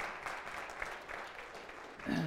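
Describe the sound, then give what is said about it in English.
Applause from a church audience for a volunteer, a steady, dense patter of clapping that lasts throughout and swells slightly at the end. “Y'all give him a round of applause here.”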